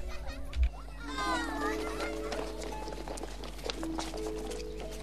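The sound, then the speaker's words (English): Girls playing in a school courtyard running over together: many quick footsteps under a steady babble of children's voices, over a constant low hum. “The rest of the girls who are playing in the courtyard run over to join them.”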